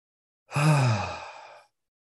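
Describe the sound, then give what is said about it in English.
A single deep, audible breath during a guided breathing exercise. It swells quickly and then trails off softly over about a second, with no talk. “Nice big inhale, nice soft exhale. Another one of those. Inhale.”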